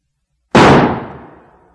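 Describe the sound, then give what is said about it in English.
A single revolver gunshot: one loud, sharp crack that starts suddenly out of silence and then decays in a fading rumble. “He took a revolver from his pocket and shot himself through the mouth.”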